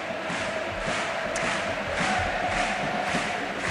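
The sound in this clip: Crowd noise from football fans at a stadium match in Almería: a sustained, broad roar of many voices that swells slightly in places but stays fairly even throughout.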